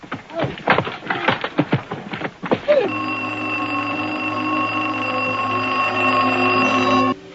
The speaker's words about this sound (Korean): 프랭크가 달려오는 사이 끊겼던 전화선이 다시 연결됩니다. 대령으로부터의 전화입니다.